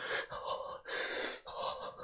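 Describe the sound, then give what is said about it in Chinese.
Heavy gasping for breath from someone shot and lying flat on the ground, a few rapid, harsh, airy breaths alternating in tone, loud and without words. “我这时才意识到，我中枪了。我，我尝试着想站起来，结果上半身使不上力气，只能平躺在地上，大口的吸气。”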